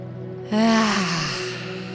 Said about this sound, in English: One more deep full breath in.